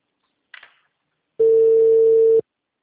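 A telephone ringback tone on the line: a faint click, then a single steady, loud electronic tone lasting about a second before it cuts off.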